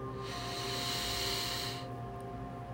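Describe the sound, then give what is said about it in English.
A deep inhale through the nose, a soft, airy hiss held for about a second and a half over a faint, constant low hum. “Let's take another cycle of breath together. Inhale through your nose.”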